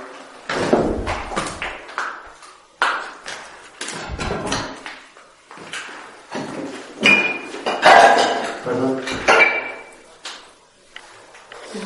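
Dishes and pots clatter in a kitchen of a house out in the mountains: many irregular knocks, thuds and clinks, with a few brief ringing metallic tones among them.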